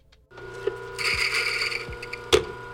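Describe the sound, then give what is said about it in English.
Coffee grinder at a St. Louis roasting facility grinding freshly roasted beans: a steady mechanical whir with hum and rattling, punctuated by two sharp clacks as the lever is tugged. “is grinding up several batches of freshly roasted coffee beans. He tugs the lever twice to get every coffee ground out.”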